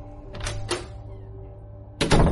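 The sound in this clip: A main front door is eased open a crack and shut again: a couple of soft clicks and knocks, then a louder, longer rattling thud, over a low steady hum.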